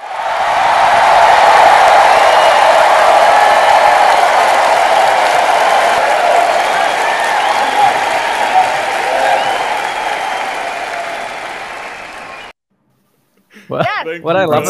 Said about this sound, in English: And so I think you both deserve the applause. The only thing is I don't have the button to do it. So, we'll do it for us and for the audience.